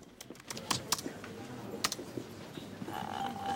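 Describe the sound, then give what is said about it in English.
Computer keys click as a drug name, tamsulosin hydrochloride, is typed into a database: a few sharp, irregular taps in a short burst, then a pause and one more click. “She types tamsulosin hydrochloride into a database.”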